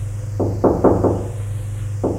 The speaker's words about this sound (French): Frappe à une porte.